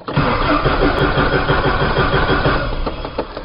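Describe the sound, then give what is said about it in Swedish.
A grey Volvo 240's engine cranks steadily without catching, in a loud, continuous, rhythmic churn that runs the whole length and never fires into an idle. “ni kommer ihåg hur det lät tidigare i somras när vi skulle starta den här gråa Volvo 240 som det inte blev någon start av”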